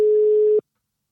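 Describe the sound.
A telephone ringing tone on an outgoing call sounds as a single steady mid-pitched beep, held just over half a second before cutting abruptly to silence.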